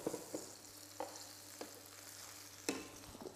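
Sausages frying in a pan, a faint, steady sizzle broken by a few sharper stirring scrapes, with no talk.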